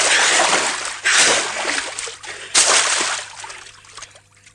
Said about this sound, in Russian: стоя на коленях на дне ручья, бьет по воде руками